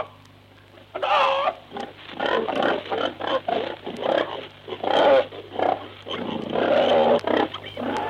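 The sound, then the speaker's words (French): A man's voice imitates a rapid string of animal cries, barking, chirping, meowing, yapping and cackling, in a 1947 recording from Paris. The bursts are loud, varied and closely packed over a steady low hum. “Il aboie, il piaille, il miaule, il jappe, il caquette.”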